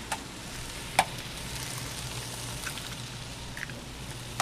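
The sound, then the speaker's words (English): Eggs frying in a hot pan with cherry tomatoes, garlic and oil, giving a steady sizzle broken by a few small sharp ticks and pops. “And we're going to add some cherry tomatoes. Okay, I'm going to turn down the heat, crack some eggs.”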